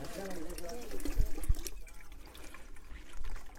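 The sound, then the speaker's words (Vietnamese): Natural mineral spring water trickling and flowing out of a rock seam, with a steady, faint watery trickle under a person talking. “Thì đây là cái vị trí được xem là cái nguồn nước tự nhiên chảy ra bất tận.”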